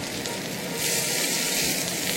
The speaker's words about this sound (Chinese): 我们就是把刚刚煮好的意大利面就放到锅子当中，跟鲑鱼一起 搅拌。